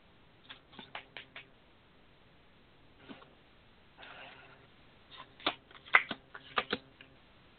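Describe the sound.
Universal Waite tarot cards being shuffled, soft riffling and flicking in several quiet clusters separated by short pauses.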